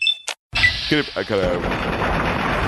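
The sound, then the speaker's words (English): Automatic weapon gunfire in a video game: after a sudden cut, a rapid burst of shots rattles out, followed by a sustained noisy rumble, with a man talking around it. “I got a good headshot on him. I think that was two volleys. It's a little hard to count the volleys, whether it's two or three in the automatic weapons because they're so fast.”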